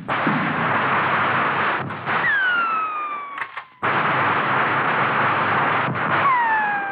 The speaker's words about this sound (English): There he is. Got that shotgun.